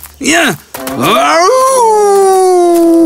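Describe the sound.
A voice imitates a wolf howling: two short yelping cries, then a long wavering howl that rises and slowly falls away, loud and alone.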